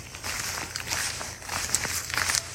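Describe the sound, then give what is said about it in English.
Footsteps of people walking, soft irregular shuffling steps that continue throughout at a moderate level. “Let's keep walking a little more.”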